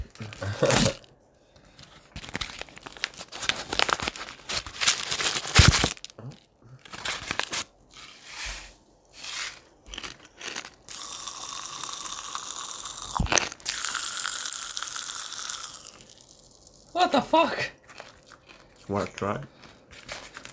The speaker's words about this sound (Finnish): Tällaisia karkkeja, jotka vähän niinku rouskuu suussa. Mm. Open this bad boy.